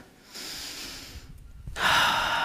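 A breath taken during a church service: a long, soft hissing inhale, a brief quiet pause, then a louder, breathy exhale, with no talking.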